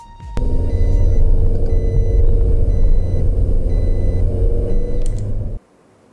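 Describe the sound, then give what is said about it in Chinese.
Loud, sustained engine roar and low rumble of a car accelerating hard, recorded by a dashcam. It holds steady for about five seconds with no talk, then cuts off abruptly. “在画面中，我们可以清晰听到嫌疑人驾车持续加速所产生的轰鸣声。 加速的声音非常大，发动机在嘶吼，”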